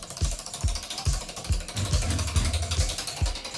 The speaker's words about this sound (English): And I've got the prize wheel right here in the studio, so let's give it a massive spin.